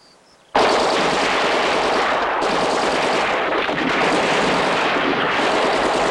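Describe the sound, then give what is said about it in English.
Machine gun and rifle fire aimed into a cornfield: after a brief quiet moment, loud, dense rattling gunfire erupts and continues without letup. “The gunfire mows them down.”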